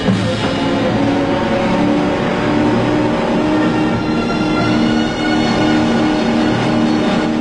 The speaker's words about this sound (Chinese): 已经被打爆油箱的快艇冲到小岛的岸上